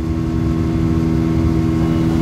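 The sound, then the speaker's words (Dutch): A boat's steady engine drone, carrying the boat along the Sobat river as a mobile medical clinic. The hum is loud, low and even throughout, with no break and no voices. “We varen over de Sobat rivier,”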